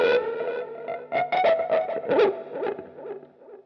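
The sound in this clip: Electric bass played at high volume through an effects pedal with heavy distortion, a held note with vibrato followed by several harder attacked notes whose pitch wavers toward the end.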